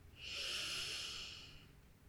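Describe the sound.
One slow, soft inhale during a guided meditation, a faint, airy hiss that swells and then tapers off over about a second and a half, with nothing else heard.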